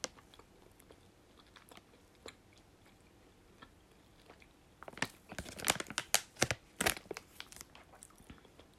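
Chewing of a soft muscat-flavoured gummy candy. Faint, scattered wet clicks give way to a dense run of louder, squishy chewing sounds toward the end.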